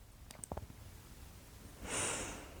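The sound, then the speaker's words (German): A slow, deep breath during a guided relaxation exercise, a soft airy rush that swells near the end and follows a few faint clicks. Quiet overall, with no talking. “Also schließ die Augen, atme 2 bis 3 Mal tief ein und aus.”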